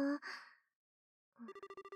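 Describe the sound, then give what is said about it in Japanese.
A short breathy voiced sound, a pause, then the rapid pulsed electronic tone of a telephone ringing as a call is placed. “とにかく、今から電話するから。私が合図してから入れてね。ちゃんと出てくれるかな。”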